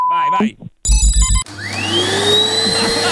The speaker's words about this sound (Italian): Perché è partito l'aspirapolvere con un gatto?